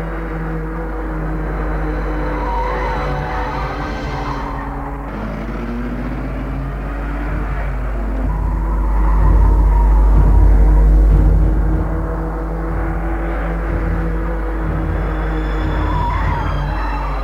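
A car drives along with a continuous rumble of engine and road noise that swells louder midway through and then settles, with no voices.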